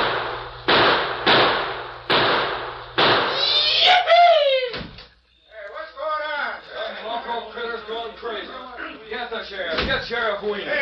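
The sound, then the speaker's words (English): Several sharp gunshots crack in quick succession in a radio western drama, where a drunken gunman is shooting up a town. The loud bursts are followed by voices talking. “Guess this gent had too much to drink. He's trying to shoot up the town.”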